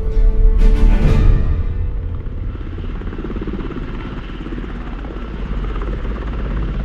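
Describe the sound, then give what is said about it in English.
A Chinook helicopter drones loudly in flight as it begins its descent toward Mihail Kogalniceanu Airport in Romania; a heavier rumbling swell in the first second settles into a continuous, thrumming rotor hum. “Approaching Mihail Kogalnitsiano Airport, Romania. After hours in the Chinook, we finally begin our descent.”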